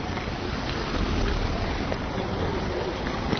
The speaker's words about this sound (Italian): finalmente sta piovendo, perché è un caldo da Madonna incredibile. E adesso farò una passeggiata sotto la pioggia, registrando.